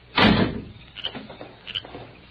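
A door is pulled shut as a servant leaves a house at night: one heavy thud, followed by a few faint knocks and rattles.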